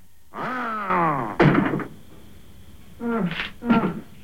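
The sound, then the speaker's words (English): Monster in a film scene bursting in through the door of a hut: drawn-out groaning moans, then a heavy thudding crash at the door, followed by two more strained moans. “The monster staggers to the door and comes bursting in.”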